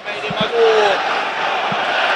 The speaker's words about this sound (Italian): L'applauso del Tardini per il gran tiro di Strefezza dai 20 metri, un fantastico destro che ha stampato la traversa, peccato.